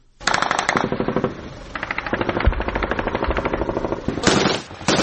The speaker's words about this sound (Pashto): دا د کوټ ولسوالۍ د سید احمد خیلو په سیمه کې د افغان امنیتي ځواکونو او د داعش وسلوالو ترمن د مخامخ جګړې د سپکو درنو ډزو غږونه دي.